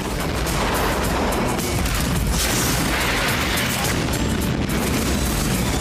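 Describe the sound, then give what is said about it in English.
Heavy weapon fire aimed at giant underground worm creatures during a monster hunt: dense, loud blasts and booms run almost without a break for about six seconds, with no clear gaps between shots. “Preparing to fire.”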